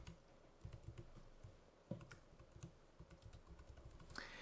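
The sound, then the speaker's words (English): Someone types a username on a computer keyboard, producing many faint, irregular key clicks in quick bursts with a few sharper taps standing out, and no one speaks. “We follow that by typing in the username, the password, a repetition of the password, and an optional email.”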